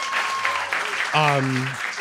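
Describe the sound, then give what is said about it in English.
Audience applause at a live talk event in a venue with classroom seating, a steady wash of claps throughout, with a voice speaking over it partway through. “First of all, clap for Gertie.”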